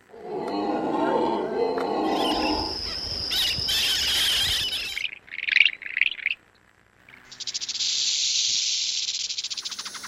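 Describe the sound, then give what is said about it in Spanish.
Sound effect standing in for a coral snake in a children's movement game: harsh hissing and squealing noise, a burst of quick chirps, a short gap, then a steady high buzzing rattle, with no talk. “Es una víbora de coral. Entonces, cuando escuchemos el sonido de la víbora de coral”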